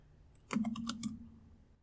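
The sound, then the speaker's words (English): Faint typing on a computer keyboard while searching: a short run of several quick, light key clicks in about half a second, then quiet. “What should I type in to find this documentary?”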